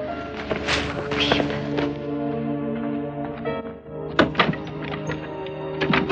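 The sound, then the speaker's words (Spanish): A few dull, heavy thumps come from a kick against an old, worm-eaten wooden door. The impacts land over a steady musical bed, and the sharpest pair strikes near the end. “Vuelve a la puerta carcomida y le da una patada.”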